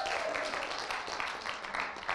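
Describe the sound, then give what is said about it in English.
Audience applause at a gathering, a faint but dense, steady patter of many hands clapping that carries on without a break. “This is the part where everybody claps and gets excited.”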